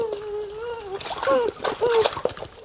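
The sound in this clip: A European beaver slaps the water with its long flat tail, making splashing and sloshing sounds beneath a talking voice.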